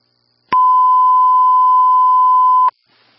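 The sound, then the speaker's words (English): A priority dispatch alert tone sounds during a test of alert tones: one loud, steady, pure beep at a fixed pitch, lasting about two seconds and ending abruptly, with silence before and after. “This is a test of the alert tones. Alert tone 1, priority dispatch.”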